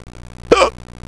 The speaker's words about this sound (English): I think I have the hiccups now.